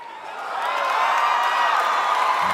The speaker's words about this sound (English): Break for applause.